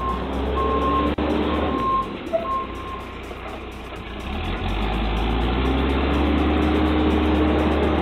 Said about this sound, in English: This dude is just in a regular backhoe.